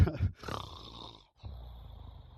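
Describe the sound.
A boy snores while asleep: two rough, rasping breaths with a short pause between them, low and grainy, with no talk.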